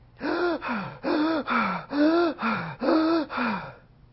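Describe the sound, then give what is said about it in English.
A person's voice imitates Kussmaul breathing: deep, rapid, regular breaths, four in-and-out cycles of loud voiced gasping inhales and exhales in an even rhythm, then silence. “But I will mime them for you. Yay! All right, Kussmaul.”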